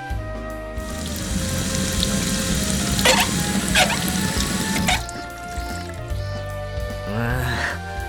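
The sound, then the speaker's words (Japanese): Running water at an outdoor tap while dirty plates from a barbecue are washed, a steady, full splashing rush that continues throughout. “早々にゲームから脱落した俺は、汚れたプレートを持って水場に赴いていた。”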